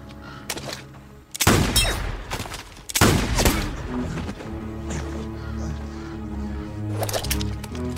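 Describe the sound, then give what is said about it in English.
Gunshots ring out during target shooting: a few sharp cracks, then two loud blasts and a final shot, set over a low sustained drone. “Reverend, what the hell are you doing? Target shooting.”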